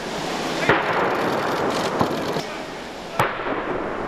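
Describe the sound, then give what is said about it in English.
Ceremonial gun salute at Buckingham Palace, fired to welcome a visiting president. A few sharp, loud reports stand out above a steady, broad background noise, spaced irregularly over a few seconds. “To the sounds of gun salutes, Donald Trump and his wife Melania were greeted at Buckingham Palace by the Queen”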